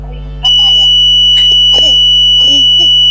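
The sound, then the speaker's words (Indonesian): A sustained high-pitched electronic beep starts abruptly and holds a steady tone, running loudly beneath brief fragments of people talking. “Iya bunyi nit, setiap Ranjai ngomong tuh bunyi nit gitu ya.”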